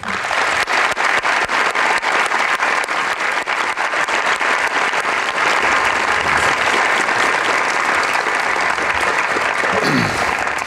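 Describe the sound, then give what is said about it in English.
An audience claps to welcome a professor receiving a faculty honor before a presentation, with steady, sustained applause that stays loud and full from start to finish. “Please join me in welcoming and congratulating Professor Kurt Holman.”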